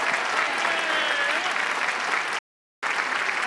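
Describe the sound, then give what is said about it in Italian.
Dense audience applause greets a cancan dance by young performers. It is loud and sustained, breaks off for a brief silent gap, then resumes at the same strength. “Facciamo un grande applauso al cancan della Maestrocchi! Forza!”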